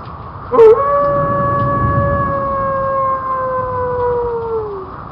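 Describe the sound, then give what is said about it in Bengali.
A single long wolf howl sound effect: one sustained, harmonic-rich tone holding steady for about four seconds, then sliding lower as it fades. A short burst comes just before it, over a constant noisy background. “বাইপাসের ধারে নেকড়ের ডাক আনলেন কোথা থেকে?”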